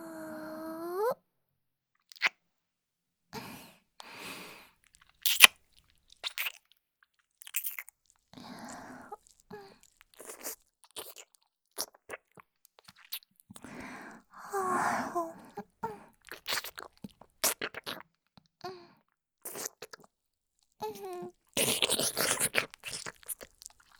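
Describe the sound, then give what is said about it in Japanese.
Wet kissing and lip-smacking sounds: many short, soft smacks scattered across a quiet background, with a brief voiced sound at the very start. “あなたの唇、少し味見させてください。”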